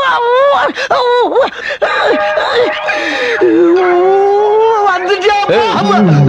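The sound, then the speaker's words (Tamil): A person cries loudly in wavering, drawn-out wails and moans that rise and fall in pitch, with sobbing breaks between them. “இப்ப எதுக்கு அழுகுற?”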